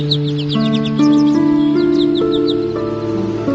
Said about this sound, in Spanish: A lo lejos cantó un jilguero.